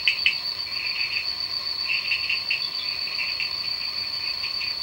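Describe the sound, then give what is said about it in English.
Rainforest ambience dominated by loud insects: a steady, piercing high buzz runs throughout, with pulsing trilled chirps layered beneath at an even, constant loudness. “So I'm not sure if you've ever been to a rainforest, but if you do have the fortune to go there, it's incredibly loud.”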